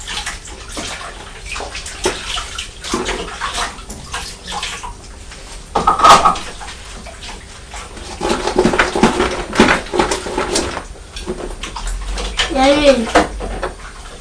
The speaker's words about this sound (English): Just wash the tray.